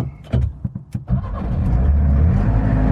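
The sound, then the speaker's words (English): A Trabant car engine, the East German model, is cranked with the choke eased out. A few uneven sputtering bursts give way to the engine catching and settling into a loud, steady, rough idle. “there's a choke down here, so I'm going to sort of ease the choke out a little bit and see if we can crank it going.”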